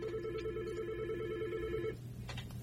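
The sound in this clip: A telephone ringing as a listener phones in, a steady warbling ring tone that lasts about two seconds and then cuts off, followed by a few faint clicks.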